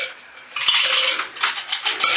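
Hot pink dice roll on a table during a tabletop role-playing game, giving a run of bright, quick clicks and clattering rattles that rise in loudness and then continue in several bursts, with no talk.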